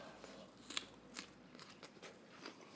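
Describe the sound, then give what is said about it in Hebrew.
Someone eating crunchy food close to the microphone: several sharp, crisp bites and crunches in an uneven rhythm, quiet overall. “למה אתה אוכל להם באוזן אבל?”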